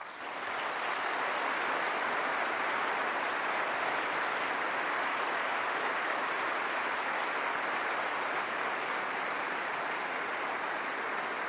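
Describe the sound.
An audience at Seattle Town Hall applauds to welcome Robert Gates, a dense, even wash of clapping that holds at a steady level for the whole stretch with no voices over it.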